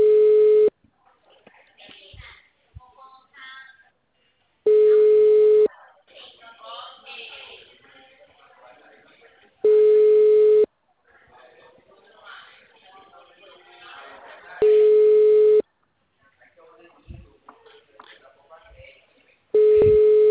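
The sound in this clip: Telephone ringback tone for an outgoing call, heard as five steady, mid-pitched, one-second tones about every five seconds, with the last one cut off. A person talks in the gaps between the tones.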